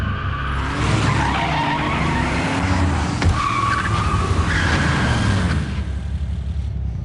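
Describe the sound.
Tires skid and squeal continuously as a car is driven hard, a loud, unbroken screech over a rough engine roar that holds steady for about seven seconds and eases only at the very end.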